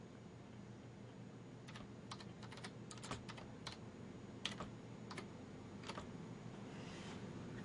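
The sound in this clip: Typing a search into a computer keyboard, with faint, irregular clusters of keystrokes clicking over a steady background hiss and short pauses between bursts.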